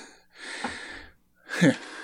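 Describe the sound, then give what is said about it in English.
Heavy breathing from someone out of breath after running between rooms: two long, rough, wheezy breaths, the second louder and harsher, with a short pause between them. “See, now I'm all out of breath because I had to run all the way back to the other room and back again. So difficult. This is an exciting, entertaining sound of me breathing.”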